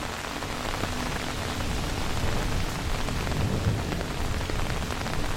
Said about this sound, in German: Während du die Mühle bewunderst, bemerkst du, wie der Regen stärker wird.